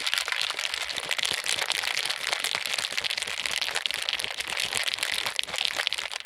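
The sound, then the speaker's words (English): Ice rattles hard inside a cocktail shaker as a martini is shaken, a dense, continuous crunching clatter that holds a steady loudness for the whole stretch with no pauses. “Like, you have to shake hard and for a while. Like, you want that ice to crush. You want it to like infuse itself in there. It's not like a margarita where you're just sort of shaking it together.”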